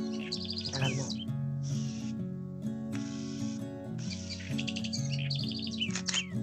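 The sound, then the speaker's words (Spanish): A house wren (chercán), a native songbird, sings in several short bursts of high, quick chirps and trills over a steady low drone. “Parece que hay un cercán por ahí. ¿Dónde, dónde, dónde? Lo tengo acá en la mira. Mira, ahí cantó.”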